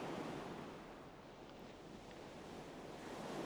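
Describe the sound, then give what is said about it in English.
Soft surf washing up on a beach shore, a quiet, broad rushing hiss that eases slightly and swells again, with some wind noise mixed in. “How about we lie down on the shore of this beach and listen to the sounds”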